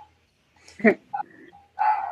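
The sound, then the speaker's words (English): Dogs bark: one sharp, loud bark, then a couple of short yips and a longer, rougher bark after a pause. “apologize for my dogs, can't control them.”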